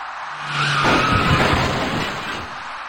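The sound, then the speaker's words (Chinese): Tires skid during a two-vehicle collision at an intersection involving an electric bicycle. A rush of noise swells with a squealing tone, peaks in a loud, harsh burst and then slowly fades. “一起两车相撞的事故陡然发生”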